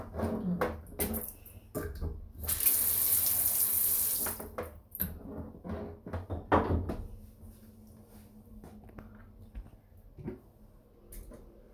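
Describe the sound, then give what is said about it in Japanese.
Tap water runs into a sink as urine from a plastic bottle is flushed away: a steady, loud rushing burst of about two seconds, surrounded by scattered clunks and knocks. “じゃあちょっと中身取り出します。取り出す。はい、おしっこも流して、”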